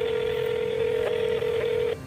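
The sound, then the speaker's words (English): A telephone being dialed to call a pizza shop: a steady electronic tone runs throughout, broken by several brief key tones near the end before it cuts off. “and then he finally picks up the phone.”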